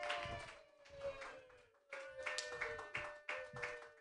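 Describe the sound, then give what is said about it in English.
Audience applause for a comedian being introduced at a stand-up show: many hand claps in uneven surges that rise, fade and swell again, sustained and fairly loud throughout. “Put your hands together for your first comedian, everybody.”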